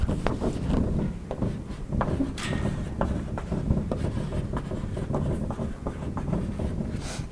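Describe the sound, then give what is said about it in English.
Chalk or marker scratching and tapping on a board during a lecture on climate feedbacks, a busy stream of short irregular strokes and clicks at a steady level with no talking. “So maybe over here we'd want to write”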